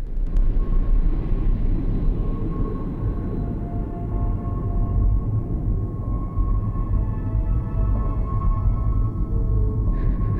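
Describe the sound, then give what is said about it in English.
An aeroplane passing high overhead makes a steady low rumble, continuous and even throughout with no other distinct sounds. “the vapor trail of an aeroplane as it passes high overhead.”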